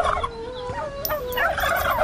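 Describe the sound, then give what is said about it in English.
A large male turkey gobbles in a loud, rapid, warbling rattle of bright throaty tones that wavers up and down and carries on almost without a break for about two seconds. “I want a giant turkey for Thanksgiving Day.”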